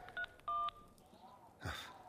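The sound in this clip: Two short electronic keypad tones sound as a mobile phone is dialed, the second lasting a little longer than the first. A brief burst of rustling noise follows, and the whole clip is faint.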